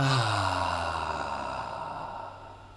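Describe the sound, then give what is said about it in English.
A group of people sigh out a breath together in one long exhale that starts voiced and slowly fades into a soft, breathy hiss. “let's be a part of that oneness as we take one big breath together and then sigh it out. In through the nose. Hold it. And then sigh it out.”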